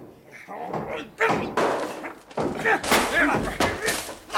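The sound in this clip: A door being forced open during a police raid: a few heavy, booming slams and thuds hit hard and loud, with voices around them.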